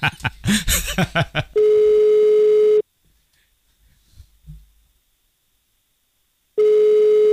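Ringing tone of an unanswered telephone call: two long, steady electronic beeps at a single pitch, separated by a few seconds of near silence.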